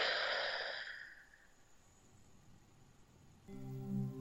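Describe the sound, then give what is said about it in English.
Deep breath drawn in through the nose and blown out through the mouth during a guided breathing exercise: one long, airy rush of breath fades within about a second, leaving near-silence, then a low tonal sound enters at the end. “So let's start by taking 3 deep breaths through the nose and exhaling through the mouth, just to connect with the energy of breath. Breathe in and breathe out and blow.”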